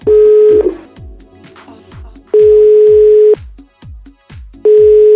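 A telephone line tone sounds while a call is placed again: a steady, buzzing tone comes in three long bursts, each about a second, separated by pauses, with faint rhythmic ticking underneath.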